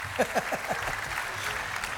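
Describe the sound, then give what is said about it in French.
Concert fans at an open-air Roman theatre clap and cheer. Dense, steady applause runs throughout, with a few shouted whoops near the start. “Et les fans crient.”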